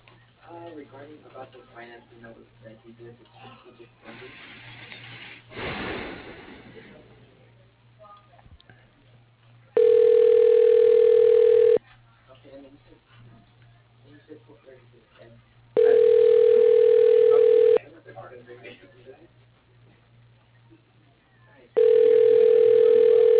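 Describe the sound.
Telephone ringback tone plays while a call is transferred to another desk: three long, steady electronic ring bursts separated by pauses, with a person speaking before and between them.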